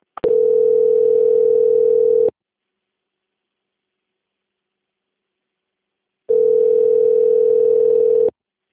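A telephone line tone plays while a bank call is transferred: two steady, mid-pitched electronic tones, each lasting about two seconds, separated by a long silence.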